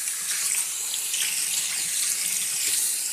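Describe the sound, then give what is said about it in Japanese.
Running water rinsing shampoo out of hair, a steady, faint hissing splash that flows without pause throughout. “では、左側も流していきますね。手でよく拭きながら、”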